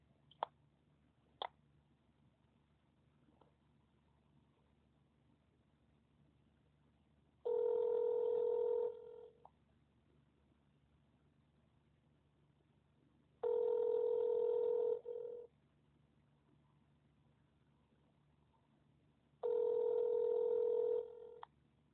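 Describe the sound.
Telephone tones on a call to a police department: a couple of faint clicks, then three long, steady ringing tones evenly spaced several seconds apart with quiet line hiss between them.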